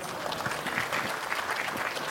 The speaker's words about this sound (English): How about a round of applause for both of them?